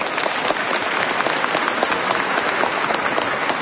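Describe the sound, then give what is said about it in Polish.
Applause from a crowd at a parish gathering, a dense, steady patter of many hands clapping at an even loudness the whole way through. “Brawa dla nich.”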